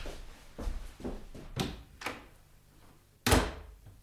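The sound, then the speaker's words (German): A door being closed: a series of soft wooden thumps and knocks, then one sharper, louder thud near the end, with no one speaking. “Während Josef die Tür hinter sich schloss”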